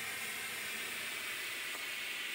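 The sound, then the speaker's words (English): Loud, continuous hiss of steam from a boiler safety valve lifting at about 110 pounds per square inch, a steady bright roar that holds unbroken throughout. “So that safety is lifting at about 110 pounds per square inch. If we keep making more and more steam, now it's sounding quite angry.”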